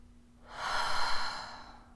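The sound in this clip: A single deep breath out, a soft, airy exhale that swells and then fades over about a second and a half, quiet and with no speech.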